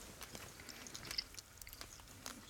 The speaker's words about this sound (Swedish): Det är ungefär 2 centimeter stor ostbit och en torkad jordgubb som är ungefär lika stor. Du kör, jag äter med fingrarna, förlåt.